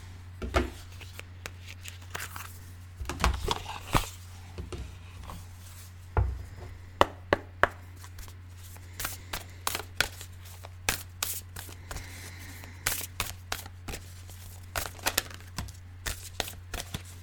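Crisp riffling, tapping and handling of a deck of oracle cards with watercolor artwork, as the cards are opened and shuffled in many irregular bursts over a steady low hum.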